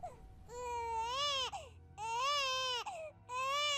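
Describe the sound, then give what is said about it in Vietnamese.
A child crying inside a house: three long wailing bursts, each swelling and bending in pitch before breaking off, loud and strained, over a low steady background hum. “tiếng trẻ con khóc vọng ra từ bên trong nhà.”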